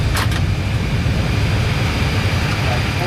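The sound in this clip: Steady jet engine roar of an airliner as engines one and two are shut down, with the parking brake set and the APU available; a dense, even noise that stays level throughout.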